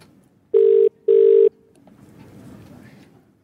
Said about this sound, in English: We're dialing.